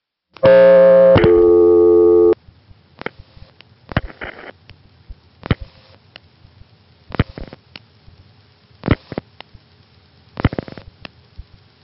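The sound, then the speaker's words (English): A telephone line on a loop circuit gives a steady, buzzing two-part tone for about two seconds. A series of short, evenly spaced clicking bursts follows as zero is dialed. No voices are heard. “The call will go through, and at that point we'll just be sitting there with the loop circuit ready to take whatever we want to dial. I'll dial 0.”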